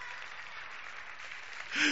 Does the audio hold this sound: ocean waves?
no